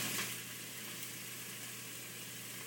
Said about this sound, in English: Vegetables are in, and you can hear them sautéing a little bit in the turkey drippings